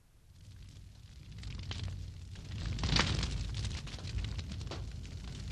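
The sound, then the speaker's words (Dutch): A small house burning in a fire gives a continuous rushing roar with faint crackle, swelling toward the middle and staying loud and dense to the end. “Nee, dat is trouwens veel te groot voor een kampvuur. Dat is het huisje van Harry. Nee, dat zat in brand.”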